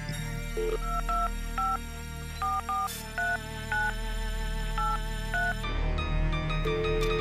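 A telephone rings with repeated pairs of bright electronic tones, sounding in several bursts over a steady musical background. No one speaks.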